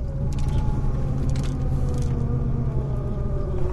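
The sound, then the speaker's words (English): Old car crawling along and groaning, a low, steady droning rumble with faint engine tones running throughout and no talk. “As you can hear, the fine-tuned instrument that is our vehicle. Crawling along, groaning.”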